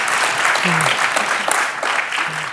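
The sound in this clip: Audience applause welcoming a panel of women advocates on stage: a loud, continuous wash of many hands clapping that holds steady and unbroken for the whole stretch.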